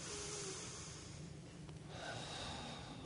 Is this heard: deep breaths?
yes